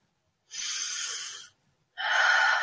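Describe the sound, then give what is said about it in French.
Two long, breathy exhalations blow air out during a calming breathing exercise, the first about a second long and the second slightly shorter, each a soft, hissing rush separated by a brief silence. “juste souffler”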